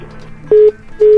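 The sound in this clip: A telephone line tone after a call to a live radio show cuts off: two short, steady, mid-pitched electronic beeps with a brief gap between them, loud over a faint background.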